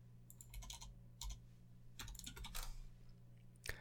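Typing on a computer keyboard while searching online: irregular clusters of quick keystroke clicks, some in rapid bursts, with short pauses between, over a low steady hum.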